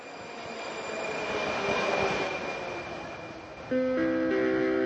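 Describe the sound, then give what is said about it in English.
An underground train on Prague Metro line C rumbles continuously with a thin, sustained squealing tone, then near the end a louder, buzzy harmonic whine sets in abruptly over the running noise. “Now that sound is from the Prague Metro. It's from, I think, line C, one of the three lines of the underground system that carries over 1 million passengers every day.”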